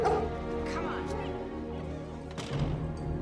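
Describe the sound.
A mother dog barks and yips in short bursts mixed with whimpers, under people talking.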